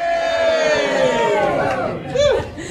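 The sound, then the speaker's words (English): Cheering and hollering from a large crowd gathered for a handball competition during footy final specials at a Harvey Norman store. A loud swell of many shouting voices rises once more toward the close. “We've got a huge crowd here, haven't we, everybody?”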